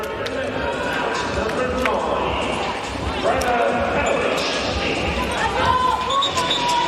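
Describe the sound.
During a volleyball match, a player bounces the ball a few times before serving. The soft thuds come under a commentator's voice and steady crowd noise.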